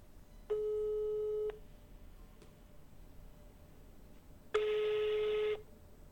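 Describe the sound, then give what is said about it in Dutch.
A telephone line tone on a busy hotline: two steady, level beeps of about a second each, separated by a pause of roughly three seconds, the second one carrying an added hiss. “Nekker Noodlijn. Is op dit moment in gesprek. Laat een bericht achter na de toon.”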